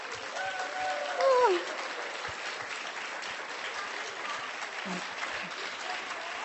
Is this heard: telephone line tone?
no